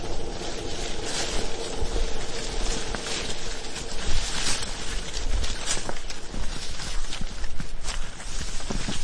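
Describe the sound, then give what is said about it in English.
Footsteps walking through dense salal undergrowth, a continuous rustle and crunch of leafy stems that carries steadily with no voices. “So that's pretty characteristic noise, is walking through the Salal.”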